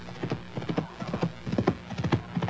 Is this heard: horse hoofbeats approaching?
yes